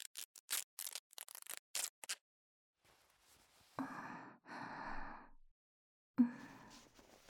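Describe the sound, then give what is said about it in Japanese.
Scissors cut through clothing to reach an injured person's broken arm, a rapid run of crisp, sharp snips, followed by quieter breathy sighs and exhalations. “服はすみませんが切ってしまいます。”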